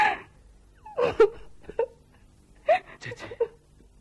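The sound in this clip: A person crying, heard as several short, strained wailing sobs in separate bursts with quiet gaps between them.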